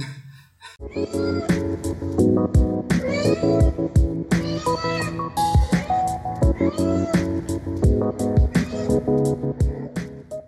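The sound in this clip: A pet cat meows many times in succession, the cries bending up and down in pitch over tonal music in a recorded album track.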